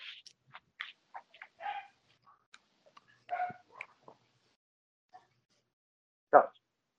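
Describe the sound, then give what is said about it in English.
A dog gives faint, scattered short yips and whimpering sounds, then one louder, sharper bark near the end, with long quiet gaps between. “Dog.”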